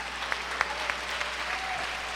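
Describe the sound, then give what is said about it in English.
Audience applause as an audience welcomes a preacher to the stage: loud, dense, steady clapping from many hands throughout, with a few sharper claps standing out. “stand to your feet this morning. Put your hands together. Help me welcome the man of God, Pat Schätzlein.”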